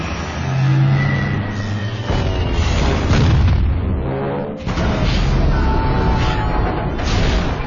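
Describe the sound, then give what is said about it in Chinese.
Bombs exploding as Japanese bombers attack Pearl Harbor, Hawaii: a loud, continuous rumbling roar with heavy booms, broken by a few abrupt shifts in the din. “夏威夷时间早晨七点五十五分，日军轰炸机在珍珠港投下了第一枚炸弹。”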